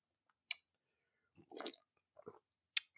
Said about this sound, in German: trinke ich jetzt erstmal einen Schluck Kaffee